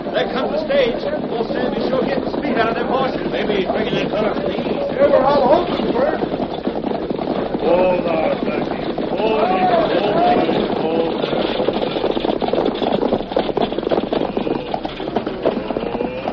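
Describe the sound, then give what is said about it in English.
Hoofbeats of horses drawing a stagecoach as it arrives in a Western radio drama, a continuous clip-clop with rolling noise beneath voices that talk over it the whole time. “There comes the stage now. We'll soon know if the man from Washington is on it. Those horses,”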